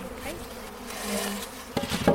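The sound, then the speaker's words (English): Bees buzzing as they fly into a hive where the queen is held, a steady mid-pitched hum that continues throughout, with a couple of sharper knocks near the end. “Let the flying bees come in here.”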